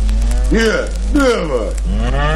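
Cows moo in a stable, giving several long, deep bellowing calls that swell and overlap one after another, loud and steady throughout with no talk.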